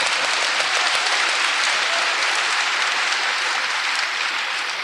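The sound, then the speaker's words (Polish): Steady applause from a church audience during a bilingual Polish-English sermon, dense and continuous throughout with no voices over it. “Teraz trzeba klaskać.”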